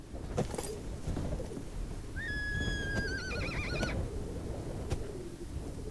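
A horse whinnies once, a high, quavering call that wobbles and trails downward over about two seconds, above a steady low rumbling background.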